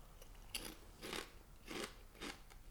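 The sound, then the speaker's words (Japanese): Crisp crunching as someone bites and chews habanero-flavoured Tongari Corn corn snacks, four separate soft, dry crunches spaced roughly evenly apart, quiet and with no voices. “とんがりコーンだ。 マジで。 うん、 僕も食べますよ。”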